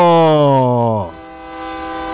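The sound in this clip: A train whistle sounds one loud, sustained, harmonic blast that sags slightly in pitch, then cuts off after about a second, leaving a low rumbling train noise.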